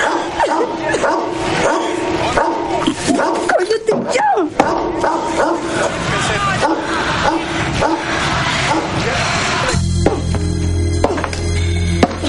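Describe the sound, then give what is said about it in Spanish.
An angry dog barks furiously at a woman inside a house, in a dense, loud, rapid run of many barks that carries on almost without pause. “El perro furioso ladra a Gloria.”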